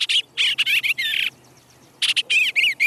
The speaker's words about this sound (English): With a rough chatter and raised wings, the bluebird warns the swallow away.